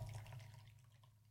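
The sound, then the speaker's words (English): Hot coffee pouring into a carafe makes a faint, steady liquid trickle with a low hum underneath. The sound eases slightly over its short length. “I don't know if you can hear, but that is my carafe.”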